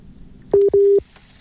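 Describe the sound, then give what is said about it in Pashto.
Telephone busy signal after a phone line was cut: two loud, steady beeps at one low pitch, the first brief and the second longer, with near-silence around them. “دا سه معلومیږي چې د دوی د ټلیفون لاین کټ شو”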